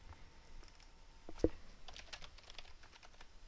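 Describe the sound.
A username is typed on a computer keyboard as faint, quick keystrokes, with one sharper click standing out near the middle.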